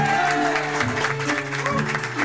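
Audience applause at a French entertainment show, steady dense clapping under a continuous bed of music, loud and sustained throughout.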